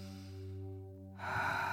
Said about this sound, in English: Let's take a deep heart breath.